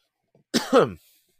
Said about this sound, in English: I had an itch in my throat. Sorry.